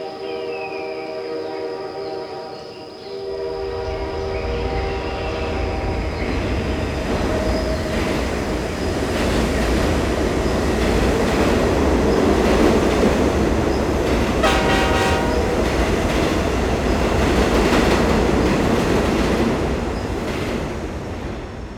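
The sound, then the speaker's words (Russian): Magic train in a children's story, running as a loud continuous rumble of rail noise with clattering wheels, a sustained horn-like tone at the start and a brief high squeal around the middle. “Только давай поедем туда на волшебном поезде.”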